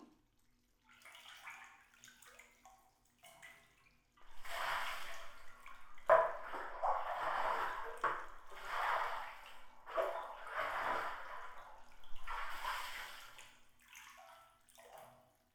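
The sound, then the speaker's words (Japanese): Warm water poured over someone in a bath: faint trickles at first, then a series of splashing pours that rush in repeated bursts, with no talk. “もう少しお湯をかけて、体を温めようね。”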